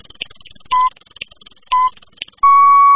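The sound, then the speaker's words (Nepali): Radio time-signal pips marking six o'clock in the morning on an FM station: two short, steady high beeps about a second apart, then a longer sustained tone at the end, over faint background sound. “Shukla Gandaki time check.”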